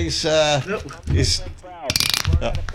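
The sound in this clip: Ratcheting clicks from a click belt, heard as a dense burst of rapid, sharp mechanical clicks toward the end, after softer, smoother sounds.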